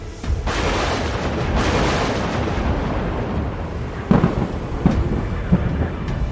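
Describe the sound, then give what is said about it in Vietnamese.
Thunder from a summoned barrage of lightning strikes rolls as a deep, loud, continuous rumble, with a few sharper cracking hits breaking through near the end. “Một loạt những tia sét đánh xuống”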